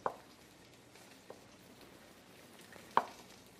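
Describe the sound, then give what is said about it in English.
Salmon searing in a pan, a faint, steady sizzle with a few soft taps, one at the very start and a sharper one near the end. “I can hear the salmon starting to sear up a little bit.”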